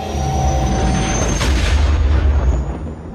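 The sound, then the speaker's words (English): A spaceship jumping into hyperspace gives a dense, sustained sci-fi roar over a deep rumble, steady and loud throughout, with a brighter whooshing surge near the middle before it thins out at the end. “Right as the laser fire was about to give the final blow to the Golden Cop, it went right into an aurora of blue and white color. They were in hyperspace.”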